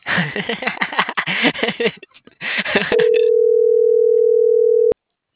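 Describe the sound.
A steady single telephone tone holds for about two seconds on an unanswered phone call, following a stretch of talk and then ending abruptly.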